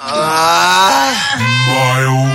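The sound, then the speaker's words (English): A mild vocal groan, one continuous, low, voiced moan lasting a couple of seconds, with a wavering pitch that dips and shifts partway through. “mild groan”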